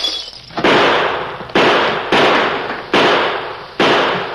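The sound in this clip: Gunshots from rifles and a six-gun ring out in a western shootout: five loud, sharp cracks at uneven intervals, each trailing off in a bright, noisy decay.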